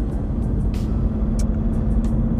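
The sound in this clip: A car being driven: a constant low engine and road rumble that holds steady throughout, with faint higher ticks above it and no speech.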